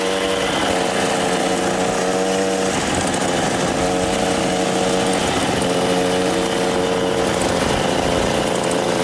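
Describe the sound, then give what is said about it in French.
A small moped engine in a film buzzes loudly and continuously, a raspy drone whose pitch shifts slightly up and down throughout. “La vie de Jésus, la mobylette, ça faisait partie du décor.”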